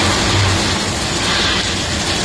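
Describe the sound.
Heavy rain falling during a downpour in La Rioja, a dense, even hiss with no separate drops, loud and unbroken from start to finish.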